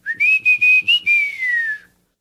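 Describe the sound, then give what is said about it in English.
Whistled speech in an indigenous language of Mexico: a clear, fairly high whistle broken into several quick syllable-like notes, then a longer sustained note that glides slowly downward in pitch before stopping. “All of these examples are from languages spoken in Mexico, but the phenomenon of whistled speech is found all over the world”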